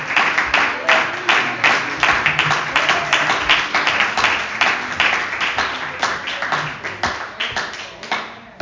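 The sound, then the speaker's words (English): Applause from a church audience welcoming a preacher to the pulpit at a Wednesday evening service: dense, sustained clapping for the whole stretch, fairly loud and steady, with no break. “Brother Atkins, if you come, amen. Let's put our hands together. Welcome to the pulpit tonight.”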